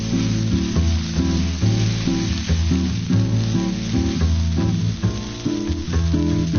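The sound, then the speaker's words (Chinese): Marinated beef, soaked in a secret sauce, sizzles on a hot grill grate: a loud, steady, continuous hiss and crackle with no pauses across the whole stretch. “先用秘制料汁腌制，让牛肉的每一丝纹理都浸满香甜，汁水也会更加充盈。先等网热再上肉。”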